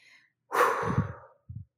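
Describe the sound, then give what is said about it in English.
A deep breath: one long, airy rush of breathing lasting about a second, followed by a short, low puff of air. It is quiet, with no talking. “take that deep breath. Maybe take a couple of deep breaths, okay?”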